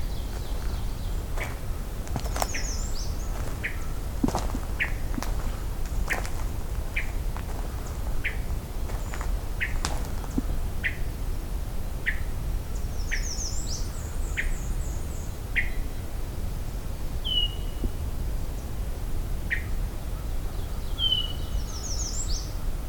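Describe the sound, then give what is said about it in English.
A hermit thrush calls with short, sharp notes repeated many times at a fairly steady pace over a constant background hiss. A few higher chirps occur now and then. “That's a hermit thrush call,”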